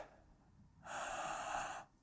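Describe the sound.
One deep breath in, a soft airy rush lasting about a second that rises in and then fades out, alone with no talk.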